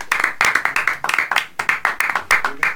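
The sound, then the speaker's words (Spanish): Applause from a small group welcoming a guest, heard as many distinct, crisp hand claps in an uneven, quick rhythm at moderate loudness, with no talk over them. “bienvenido Bamba, fuerte el aplauso”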